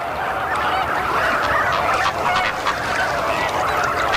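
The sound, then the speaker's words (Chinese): Loud, continuous honking cries rise from a crowded group of nearly identical young birds. Each chick has its own distinctive call, and the calls overlap into a dense, unbroken chorus. “好在每只新鸟都能发出独特的叫声”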